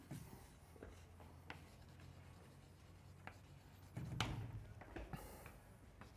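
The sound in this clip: Writing on a board during a physics lecture: soft scratching strokes and light taps in irregular bursts, faint throughout, with a denser cluster of strokes toward the end and no talk.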